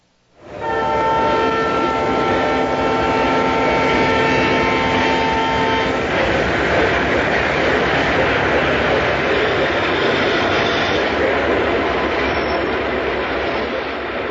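A train horn sounds at a rural railway station on a winter day, a loud steady multi-tone blast for about five seconds over heavy rumbling, then the train's continuous roar and rattling carry on unbroken.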